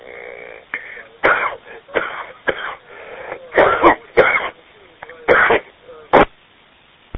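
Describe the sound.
Throat clearing and coughing from a man on a shortwave amateur radio link, heard as several harsh, rough bursts scattered between quieter stretches, the sound thin and band-limited.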